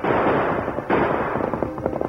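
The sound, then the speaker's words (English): Gunshots fired by a fleeing rancher at a pursuing horseback rider: many sharp, loud cracks in quick, irregular succession over a dense, noisy rumble, with no talk. “the Lone Ranger rode on in spite of the bullets thrown at him by the fleeing rancher”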